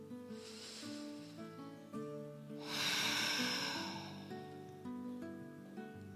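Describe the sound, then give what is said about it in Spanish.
Two deep, slow breaths from a guided breathing exercise, each a long, soft, airy rush that swells and fades, the second fuller and louder, over steady sustained music tones. “simplemente respirar. Respirar profundo y lento. Vamos a hacer dos respiraciones.”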